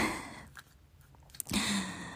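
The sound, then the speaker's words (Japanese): Chewing and crunching on snacks, with a few short, soft crunches in an otherwise quiet stretch and no talk. “お菓子もね食べてるんですけれども”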